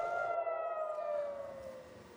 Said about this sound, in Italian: E così anche oggi, in alcune comunità del nord di Israele, sono risuonate le sirene.